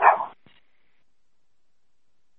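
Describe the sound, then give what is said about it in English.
One short, sharp bark from a very small black dog, followed by a faint click and then silence. “It's a very small black dog.”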